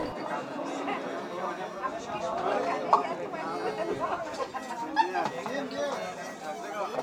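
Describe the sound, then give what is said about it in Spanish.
Steady crowd chatter fills a busy clinic in Acalamanchuchut where many people wait for appointments, vaccinations or treatment, with overlapping voices at a constant, moderate level. “Aquí en la clínica de Acalamanchuchut hay muchas personas que vinieron a su cita y además también los van a vacunar o los que están enfermos y hay mucho ruido.”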